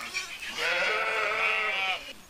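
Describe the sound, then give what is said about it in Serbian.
A sheep bleats, a ewe with lambs, in one long wavering bleat of more than a second. It is heard alone at moderate volume, with no talk over it. “Ovo su ovdje dvije ovce koje su četvoro jagnjad, još je takvih.”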